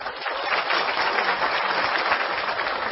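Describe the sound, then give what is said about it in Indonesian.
An audience at a gathering applauds: dense, even clapping stays steady and fairly loud for the whole three seconds, with no voices over it. “Juga tepuk tangan untuk Kiai Kanjeng.”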